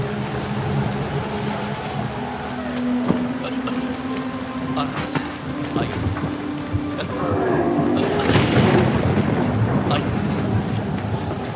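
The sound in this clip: Heavy rain pours down in a steady dense hiss with a low rumble. It grows louder and harsher in the second half, with faint voices underneath.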